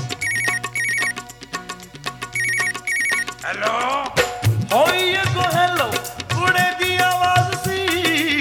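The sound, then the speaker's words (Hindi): A telephone rings while a number is dialled, giving repeated bursts of bright, high electronic ringtone notes over continuous music that carries on loudly throughout. “बैल बजी अगों receiver उठा लिया।”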